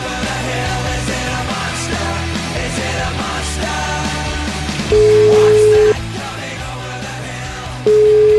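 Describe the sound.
A telephone call being placed sounds two long, steady mid-pitched tones, each about a second, separated by a pause of a few seconds, loud over a busy low background.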